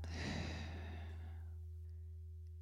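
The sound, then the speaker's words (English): A single deep breath out during a guided breathing exercise: one long, airy exhale that fades away over about a second and a half, heard alone over a steady low hum. “Breathe in. Hold for 3 seconds. And breathe out.”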